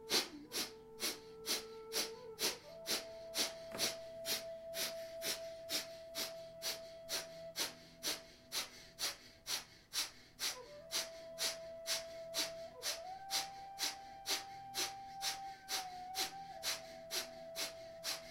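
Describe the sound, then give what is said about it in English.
Kapalabhati yoga breathing, with many sharp, forceful exhales through the nostrils in a quick, steady rhythm of about two per second. The quiet pulses sit over a soft, sustained musical tone. “Breathe in and fill up halfway and begin Kapalabhati.”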